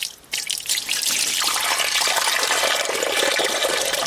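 Water pours out for birds in the mountains as a loud, steady, hissing gush that starts after a brief moment and runs on unbroken.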